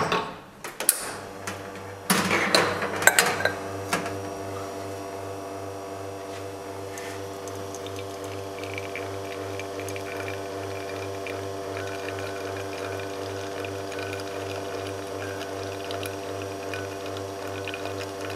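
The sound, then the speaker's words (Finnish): Espresso pump humming as a two-group espresso machine runs roughly 2.5 dl of coffee through the portafilter; a few clunks and rattles at the start give way to a long, steady, low buzzing drone that holds to the end. “Ja sitten laitetaan tänne espressokoneen kahvaan ihan niin kuin espressoa tehtäessä. Mutta sen sijaan, että valutetaan sieltä silleen pari senttilitraa kahvia, niin valutetaan nyt reilu 2,5 desiä.”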